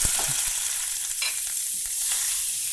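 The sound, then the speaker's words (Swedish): Butter melts in a hot pan with a steady, bright sizzling hiss, joined by a few faint pops and clicks. “Och då kommer jag smälta ner lite smör.”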